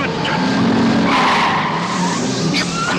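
Car tyres skidding and squealing as a car overtakes, from the French film Rabbi Jacob: a loud, continuous screech over engine roar, holding steady for about three seconds.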